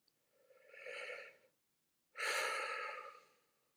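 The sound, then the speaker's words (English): A person takes a deep breath: two long, airy breath sounds separated by a short silent pause, the second louder and fuller. There is no talking. “Try taking a deep breath with me now.”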